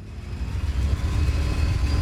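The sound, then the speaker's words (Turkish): A boat engine shifted into reverse gear, with the hull vibrating and shaking far too much. It makes a low, rough, steady rumble that grows a little louder and more uneven after the first moment. “geri vitese takacağım. Bakalım nasıl tepki verecek. Normal haline göre ne durumda? Bunu öğrenmek istiyorum. Şimdi geri vitese takalım.”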